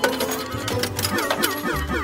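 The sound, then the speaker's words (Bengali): Coins cascade from a stack on a second shelf into a tray below after being struck by three coins, a loud, dense wash of metallic clinks and rattles that runs without a break. “দ্বিতীয় তাকের কয়েনের চূড়োটা 3টে কয়েনের আঘাতে নেমে আসছে নিচের ট্রেতে, আর তার শব্দে কানে তালা লেগে যাচ্ছে।”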